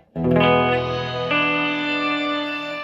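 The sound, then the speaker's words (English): Electric guitar played through a shimmer reverb pedal: a chord rings out and sustains with bright, metallic overtones, then a second attack about halfway through blends into the long, smooth decay. “It changed my tone of my guitar a lot. Let's see. Shimmer reverb.”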